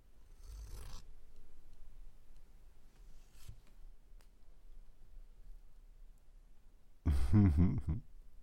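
A dress being cut with a cold knife: a few short rasping bursts of fabric slitting over a quiet background, the last burst much louder and longer than the others.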